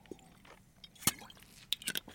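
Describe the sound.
Faint gulping and swallowing as two people drink at the same time during a pause in conversation: a few soft, wet mouth sounds, one sharper click near the middle and a small cluster of them toward the end. No talk.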